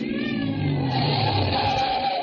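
A car drives along a road with a steady, even engine drone that stays at a constant level throughout, with no voices.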